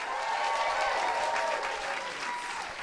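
Audience at a comedy panel event applauding as a comedian is welcomed on stage, a steady, dense round of clapping that eases slightly toward the end.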